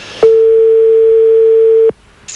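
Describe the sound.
A late-night telephone call ringing unanswered: one steady, pure mid-pitched ringing tone held for about one and a half seconds, then a brief quiet gap.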